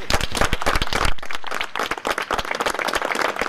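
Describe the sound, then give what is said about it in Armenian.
A group of judges and lawyers clapping to greet a judge released from custody outside Vardashen penitentiary: lively, irregular clapping with many overlapping hand strikes and brief dips in intensity. “Վարդաշեն քրեակատարողական հիմնարկի մոտ նրան ծափերով դիմավորեցին մի խումբ դատավորներ ու փաստաբաններ։”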